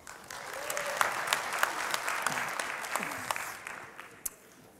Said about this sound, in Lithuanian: Tai yra Arvidas Vilčinskas, pasitikime jį plojimais.